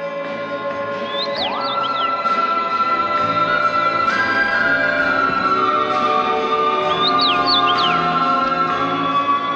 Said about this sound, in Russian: Но было поздно. Птица Крок подхватила Алису и